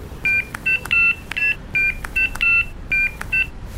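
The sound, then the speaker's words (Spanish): A telephone number is dialled on a keypad: nine short, bright tone beeps in an uneven rhythm, with small clicks as the keys are pressed and faint hiss between them. “Pero ahí estaba con el auricular en la mano y mi dedo apuntando a los números, sin decidir presionar ninguno. Marqué el número.”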